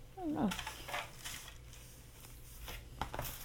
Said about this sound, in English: Don't know, but I am now pulling the Instant Pot out.